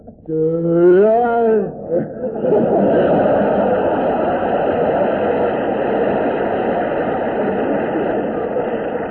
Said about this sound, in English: Here's one right here. Oh, taxi!